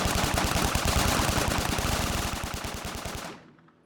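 Rapid, sustained automatic gunfire, many shots in a fast, even rhythm that stays loud for over three seconds, then stops abruptly and leaves a short fading tail.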